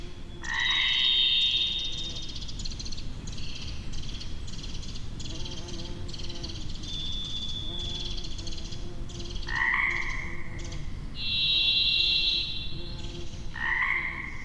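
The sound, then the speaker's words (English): A springtime chorus of Pacific chorus frogs croaks steadily and densely while a varied thrush sings several long, buzzy whistled notes, each at a different pitch, over the top. “We're hearing a varied thrush there, Pacific chorus frog.”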